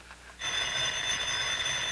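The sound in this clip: A telephone rings in a home, a bright, steady bell tone with shimmering overtones that starts abruptly after a brief quiet moment and sounds loudly without a break.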